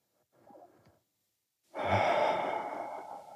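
An audible exhalation during a breathing exercise, as the feet press against the floor: a faint, short breath comes first, then a long, sigh-like breathy exhale that starts strongly and slowly fades.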